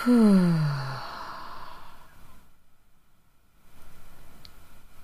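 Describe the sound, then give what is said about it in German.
Deep breathing during a guided breathing exercise: a long exhale through the mouth comes first as a loud, voiced sigh falling in pitch. It fades into a silent pause, then a quiet inhale through the nose follows. “Atme noch einmal durch die Nase ein. Halte den Atem und atme durch den Mund wieder aus.”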